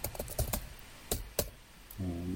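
Key clicks on a computer keyboard: a handful of sharp, separated taps at an uneven pace, then a steady low hum near the end.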